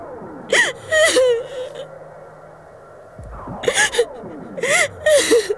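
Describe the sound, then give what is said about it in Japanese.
A woman cries, with several bursts of shaky sobs, gasping breaths and high whimpers separated by quieter pauses. No words are spoken. “愛しい私の娘、お泣きなさい。たくさんお泣きなさい。”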